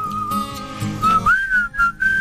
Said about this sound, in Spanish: Qué difícil silbar a un micrófono, ¿no?